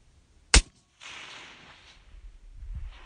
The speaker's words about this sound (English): So we've got a breeze is up and we've just got a cloud coming through, so as soon as that passes, we'll be clear to fire. Okay, wind's down.